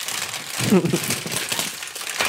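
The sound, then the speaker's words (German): Crinkly rustling of a paper prize bag stuffed with many paper slips being shaken, a dry, crackling texture that continues through the short stretch. “Mittlerweile sind da auch Papiere von ganz vielen Stockriesen drin. Lass sie mal rascheln, die Tüte.”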